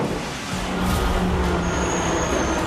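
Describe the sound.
Car on a test drive after a gearbox repair, with its gear-ratio problem fixed, the gearbox mount refitted under the chassis and its carburettor adjusted. Steady, broad engine and road noise stays even throughout, with a faint high whine joining partway.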